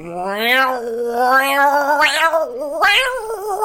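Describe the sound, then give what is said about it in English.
A human voice imitates a cat's yowl, drawing out long, wavering, nasal cries that swell and dip several times, loud and alone with no other sound. “my cat wouldn't do this noise. Maybe he would, I don't know. He's dead. It would go,”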